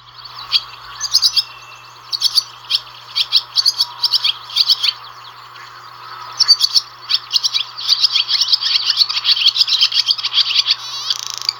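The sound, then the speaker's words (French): Barn swallow song, a rapid high twittering of chirps in short bursts that become denser and almost continuous in the last few seconds, heard alone and fairly loud. “Et tout de suite, le chant de l'hirondelle rustique.”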